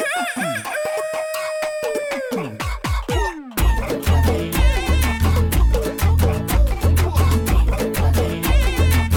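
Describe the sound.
Rooster crowing opens a Hindi film song, with a few drawn-out, wavering calls. A heavy, steady drum beat and music then take over and run to the end.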